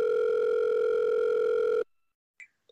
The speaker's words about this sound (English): I will try to call her.